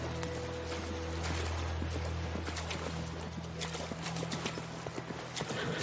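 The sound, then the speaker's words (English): Hoofbeats of a chestnut horse cantering through shallow water at a beach, giving many quick thuds over a constant noisy wash and a low steady hum. “A woman on a chestnut horse canters through the shallow water.”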